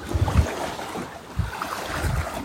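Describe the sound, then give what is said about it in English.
Waves come in on a sparkling lake, a few soft, low surges of lapping water under steady wind noise, with no voices. “Lake sparkling, singing. And this, as I sit here, or stand here, watching the waves come in,”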